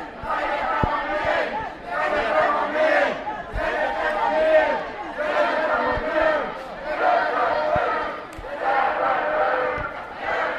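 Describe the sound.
A crowd of protesters chants in loud rhythmic waves on a street near a university campus in Budapest. Shouted bursts rise and fall repeatedly, with faint knocks and thumps underneath.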